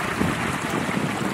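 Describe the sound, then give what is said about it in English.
Wind picking up aboard a sailboat running on a south-southwesterly course, a dense, steady rushing noise that holds constant with no distinct gusts. “Wind seems to be picking up.”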